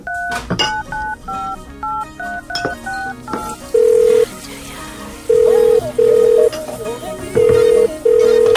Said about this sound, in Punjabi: ਰੁਕ, ਲਾਉਣਾ ਫੋਨ ਉਹਨੂੰ ਮੈਂ।